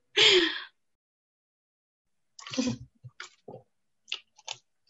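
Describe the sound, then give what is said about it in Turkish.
A person drinks water: a breathy gasp at the start, then a pause, then a few soft gulping clicks and swallows. “Arkadaşlar su içiyorum. Bugün çok susadım ben. O yüzden su içiyorum.”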